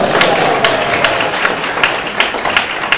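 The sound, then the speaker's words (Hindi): An audience applauds a person honoured for again distributing religious texts. The loud, continuous clapping from many hands is flecked with sharper individual claps and a faint murmur of voices. “फिर से बजाइए तालियां के लिए”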